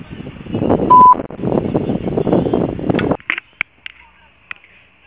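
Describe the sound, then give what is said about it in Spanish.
Voicemail tone before a message is recorded: a single short, steady beep sounds over a recorded voice prompt, followed by a few faint, sharp clicks in near silence. “Si desea, deje su mensaje en la casilla de voz. Después de tono, grabe su mensaje.”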